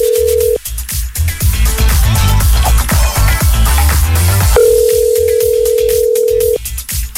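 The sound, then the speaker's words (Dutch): A telephone call ringing out to a quiz contestant: a steady ringback tone at the start, then a loud burst of music, then a long, even ringback tone again before it cuts off. “We gaan eens even iemand bellen.”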